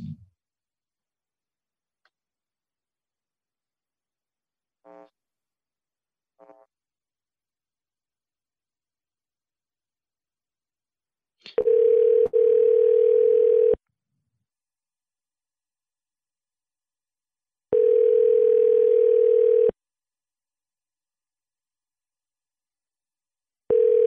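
Telephone tones on an outgoing call placed from a computer dialing window. Two short faint beeps come first, then long steady tones about two seconds each repeat with long silent gaps between them. No voices.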